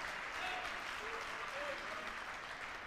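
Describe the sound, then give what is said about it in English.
Church audience applauding to welcome a guest speaker at a Pentecost service: dense, steady clapping that holds at an even level throughout, with voices faintly mixed in. “Make him feel welcome, the precious Holy Spirit. Come on, give him a great hand and say that you are welcome.”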